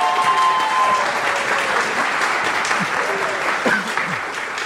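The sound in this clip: An audience applauds to welcome two performers at a show with dense, steady clapping throughout. A voice briefly joins near the end as the clapping thins.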